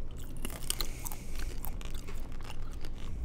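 Chewing a crunchy grape-flavoured treat: many small crisp crunches and wet chewing sounds repeat in a steady, close rhythm with no talk.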